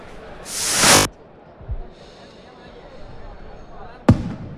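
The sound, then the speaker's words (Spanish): A firework rocket is launched to open a San Fermín bull run in Pamplona: a loud rushing whoosh as it ignites, a lull with a faint high hiss as it flies, then a single sharp bang, with background voices throughout. “este quinto encierro de San Fermín, enseguida vamos a escuchar ese cohete, cómo se enciende, cómo vuela, cómo explota”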